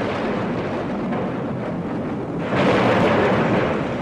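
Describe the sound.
Thunder rumbles as a storm sound effect in a spoken retelling of a legend, accompanying lightning. The deep, broad roar is continuous and grows louder about halfway through, with no voices over it.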